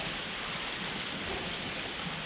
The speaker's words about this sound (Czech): A jenom by se zesiloval ten déšť.